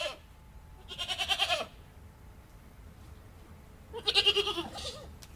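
A herd of goats with their kids bleats. Two wavering, tremulous bleats are separated by a few seconds of quiet, and each call is bright and pulsing.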